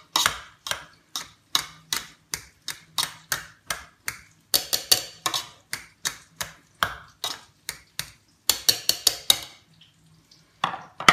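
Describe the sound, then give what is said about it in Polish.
A potato masher presses down hard on previously salted potatoes, making many rhythmic knocking and squishing strokes. Brief pauses break up the evenly repeated thumps. “Weźmiemy umiatacz do ziemniaków i ugnieciemy je bardzo mocno.”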